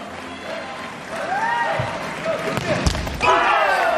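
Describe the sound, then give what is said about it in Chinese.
A volleyball serve: the ball is bounced with a dull thud, then struck with a sharp slap, heard under commentary and crowd noise. “波普继续发球。”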